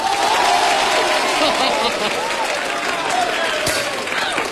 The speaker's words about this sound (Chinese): 各位您鼓鼓掌，我给您来一传统的快板行吧。